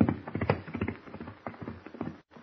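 Horse hooves clip-clop as two riders set off toward a ranch on horseback. Many uneven hoof beats fall in a quick, lively rhythm, and a brief gap of silence comes just before the end.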